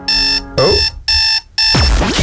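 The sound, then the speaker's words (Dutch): An alarm clock beeps in four steady bursts of a bright electronic tone with short gaps between them. The last burst runs to the end, and a voice and other sounds overlap parts of the ringing. “Je kan vanaf nu in de Q-app, is sinds een tijdje eigenlijk ook al, een wekker zetten.”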